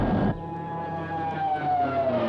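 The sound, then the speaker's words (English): A plane dives towards a jungle in a played television recording. A drawn-out whine falls steadily in pitch over a dense, steady engine roar, after a brief louder burst at the start. “He's dived towards the jungle, pulled out in time. The other pilot, nah, he's had it. That's it, all the plane's gone.”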